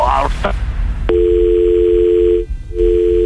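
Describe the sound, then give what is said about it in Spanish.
A phone call cuts off into a steady dial tone that holds with one short break. A brief burst of voice and noise comes just before the tone. “Se cortó la llamada”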